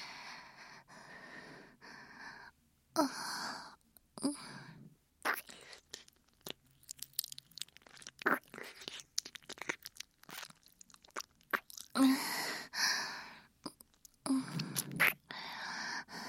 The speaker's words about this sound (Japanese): お耳から失礼しますね。右耳から綺麗にさせていただきますね。